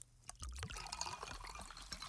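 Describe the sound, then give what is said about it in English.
Pepsi soda poured from a can, a quiet, steady liquid pour with light fizzing and trickling that continues to the end. “So go ahead, crack open a Pepsi.”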